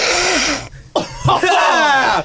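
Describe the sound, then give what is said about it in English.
A person snorts vodka up the nose, giving a harsh, breathy nasal rush that cuts off abruptly, then coughing and strained, throaty groans. “You feel the impact of the vodka right when it goes in your nose.”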